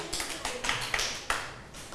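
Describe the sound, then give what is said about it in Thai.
Students clap their hands in a few separate, uneven claps. The crisp, sharp claps are fairly faint. “ปรบมือให้กับตัวเองแล้วก็ตบมือให้กับเพื่อนด้วยค่ะ”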